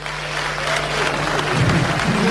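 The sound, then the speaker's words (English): An audience claps in steady, dense applause that holds at an even loudness throughout. A voice briefly sounds under the clapping near the end. “Clap for yourself.”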